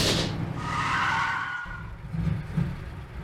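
Car tires skid hard after the car runs over something sharp: a loud rushing screech over a low rumble that eases toward the end.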